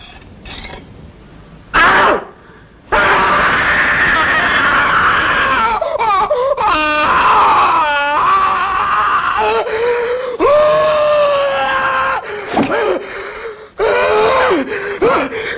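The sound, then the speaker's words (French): A man screams and wails in agony as he blinds himself in a 1967 film of a Greek tragedy: long, loud, strained cries with wavering pitch, broken by gasps, wheezing breaths and brief near-silent pauses. “C'est le moment en plus où Œdipe se crève les yeux et hurle de douleur.”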